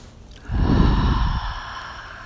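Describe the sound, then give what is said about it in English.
A deep breath is taken during a guided prayer: a single long, airy rush of breath lasting about a second, soft and breathy, heard alone without speech. “Taking that deep breath.”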